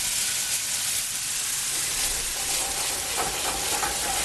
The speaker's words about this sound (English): we're going to add the balsamic vinegar and just let that deglaze the pan and bring all those great flavors back up into one sauce.